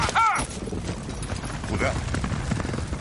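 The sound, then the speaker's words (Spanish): Hoofbeats and rumbling of a horse-drawn quadriga racing at a gallop in ancient Rome, a dense, continuous clatter that holds steady throughout. “Kalim conduce la cuadriga.”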